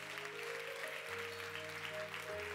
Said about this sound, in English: let's give them a hand, everybody